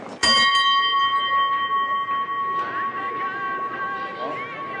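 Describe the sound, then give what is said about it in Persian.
A bell struck once, ringing out with a bright, steady metallic tone rich in overtones that sustains and slowly fades over several seconds. “بزن زنگو”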